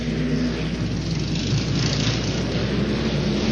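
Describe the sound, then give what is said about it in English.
Racing 250cc two-stroke engines in an amateur-class race make a loud, continuous droning roar that holds steady throughout, with no voices. “This is the amateur class. The engines are 250cc, two strokes”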